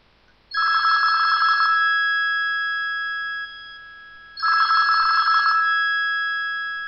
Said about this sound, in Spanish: al poco rato suena el teléfono